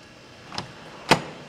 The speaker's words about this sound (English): Deep inside the Rockies Stadium, Kevin Kahn opens the door to the Humidor and then steps inside. It looks like a walk-in freezer.